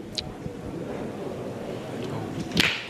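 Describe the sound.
A pétanque boule strikes the top of another boule on a high lofted shot during a match. One sharp, bright clack lands near the end over a steady background murmur, with a fainter tap near the start.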